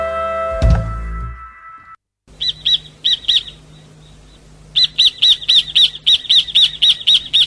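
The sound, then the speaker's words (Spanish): A small bird sings sharp, high chirps in two bouts, first a short run and then a longer, rapid, evenly spaced series. A dull thunk sounds at the very start. “Escúchelo. Precioso pajarito.”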